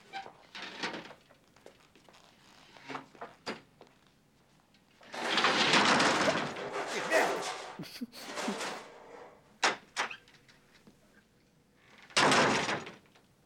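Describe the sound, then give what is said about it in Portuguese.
A heavy door is dragged and shifted with a loud, rough rumbling scrape in two long surges, with scattered knocks and thuds between them and a few sharp clunks. “A porta é pesada demais, senhor.”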